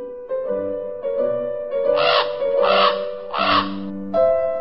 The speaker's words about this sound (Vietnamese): Ê, các ông quạ đã về rồi.